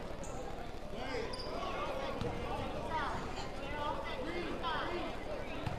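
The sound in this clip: Basketball dribbles on a gym floor before a free throw at a boys' high school game. Several bounces thud under a commentator's steady talk and crowd chatter.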